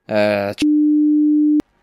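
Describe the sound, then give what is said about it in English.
A censor beep bleeps out a word in conversation: talk breaks off into one steady, loud mid-pitched tone lasting about a second, then cuts to near silence. “I'm gonna have to beep that, talking to beeps.”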